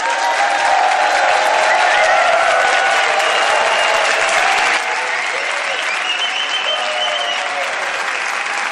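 Audience applause and cheering from a live crowd at a comedians' panel show, a dense, steady wash of clapping with scattered whoops that holds loud throughout and eases slightly in level about halfway through.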